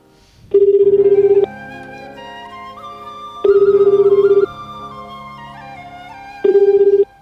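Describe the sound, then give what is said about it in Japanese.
A telephone call ringing on the line, heard as three steady buzzing ring tones, each lasting about a second and separated by roughly two-second pauses, over a faint sustained background. “今じゃあコールしてます、コールしてます。”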